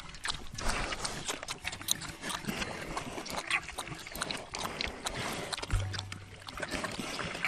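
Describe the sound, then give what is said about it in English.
Pigs drinking whey, a continuous stream of many wet slurps, laps and sloshes in an irregular rhythm, fairly faint throughout. “Look how they drink the whey up. Look, you can hear them.”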